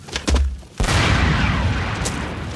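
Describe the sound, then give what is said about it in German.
A bridge blown up in a wartime demolition: after a short, softer opening, a sudden loud blast bursts in and settles into a heavy, sustained roaring rumble that fades only slightly to the end. “Wir sprengen die Brücke.”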